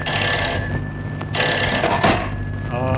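A telephone rings with a steady, bright electronic tone that carries through a dense wash of background noise, without pause for the whole stretch.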